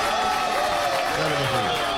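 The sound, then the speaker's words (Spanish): Applause for teachers during a Peruvian radio programme, a dense, steady wash of clapping and crowd noise at an even level, with a voice briefly heard over it. “Una barbaridad esos aplausos, ¿eh? Gracias. Son los aplausos para los maestros, ¿eh?”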